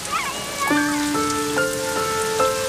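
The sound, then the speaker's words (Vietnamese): Rain falls as a steady, fairly soft hiss, with a few held musical tones sounding over it throughout. “Mưa rồi. Mưa rồi.”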